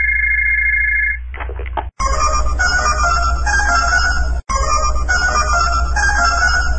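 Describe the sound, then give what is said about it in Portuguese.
A telephone rings with an incoming collect call, opening with a steady electronic tone, then a brief warble, then a loud, continuous synthetic ringing broken by two short, sudden gaps. “Chamada a cobrar, quem será o descarado que está ligando?”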